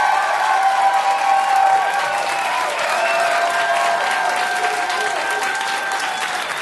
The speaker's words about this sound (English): we're going to ask you to vote by clapping, shouting, whistling, whatever you've got, okay? So first of all, let's hear the first vote for Team Patterson, Eleanor Roosevelt, Amelia Earhart.